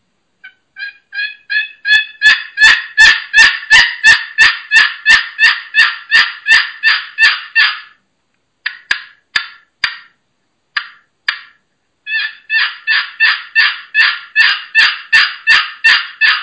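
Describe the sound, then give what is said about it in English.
Pollard turkey box call played as loud, rhythmic yelps that begin soft and build into a long fast run, then break into a few scattered notes before another steady run of many yelps. “That's the Pollard box.”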